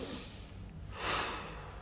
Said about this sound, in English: the technique of forceful means is to use the breath to strongly put away different thoughts and emotions.